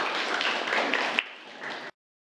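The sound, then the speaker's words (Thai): Students in a classroom clap for a classmate who answered the teacher's question. The patter is steady, then thins out after about a second and stops. “ปรบมือให้กับเพื่อนนะครับนักเรียนนะครับ”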